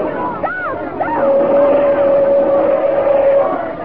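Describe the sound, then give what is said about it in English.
A car approaching on a narrow road, carried as a rumbling drone with a long steady tone held for a couple of seconds under shouting, agitated voices. “there's a car approaching”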